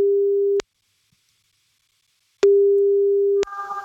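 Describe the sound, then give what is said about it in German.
Telephone ringback tone heard while calling someone: a steady, low-pitched electronic tone sounds, cuts to silence, then returns for about a second, ending in a short burst of noise. “Sobald sie rangeht, laufen die 30 Sekunden und wir rufen jetzt Sabrina an.”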